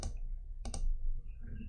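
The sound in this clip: A computer mouse is double-clicked: two crisp, quick clicks in close succession rise over a faint low background hum, with no talking.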